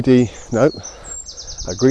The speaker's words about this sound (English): oh, there's a loud bird there in the tree I'm just walking past.